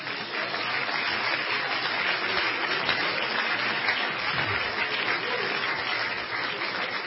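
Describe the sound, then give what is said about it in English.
A church audience applauding, giving the Lord a hand: dense, steady clapping that holds at an even level throughout, with no clear voices standing out. “But let's everybody give the Lord a hand right now.”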